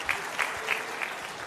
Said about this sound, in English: Give him a clap offering.